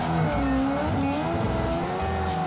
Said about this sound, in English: we'll just come in, little handbrake entry, do some donuts. A little bit of gas. Straight into it. Little handbrake, that's it.